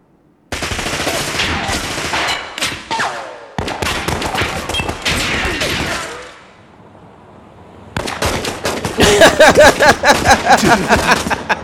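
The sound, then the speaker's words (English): Gunfire from a Draco, loud rapid volleys of shots in three long bursts separated by short pauses, the final burst sharp and tightly rhythmic. “Damn, he shot the shit out of that”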